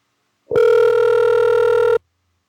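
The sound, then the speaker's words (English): A telephone call rings out as one steady electronic ringback tone. It is loud and even, holds for about one and a half seconds, and stops cleanly, with nothing else heard around it. “Yeah, I'm calling my mom. I hope she answers.”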